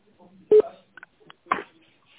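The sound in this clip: Telephone keypad tones dialing the number 7 on an automated phone menu: a few short, clipped beeps set between brief bursts of voice.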